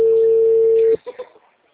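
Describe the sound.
A single ringback tone from a phone call that goes unanswered, a steady mid-pitched tone lasting about a second, then a few brief faint voice sounds.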